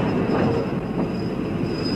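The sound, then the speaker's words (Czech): A train pulling into a station after crossing a river gives a steady, loud rolling rumble with a faint high whine held above the low noise. “Vlak přelétl Vltavu a zastavuje na Smíchově.”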